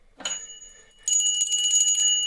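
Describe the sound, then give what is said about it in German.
A hand bell taken from a bedside table rings rapidly and continuously, a bright, shrill jangle that holds to the end after a short soft clatter at the start. “Cecilies Vater hatte die Glocke vom Nachttisch genommen und geklingelt”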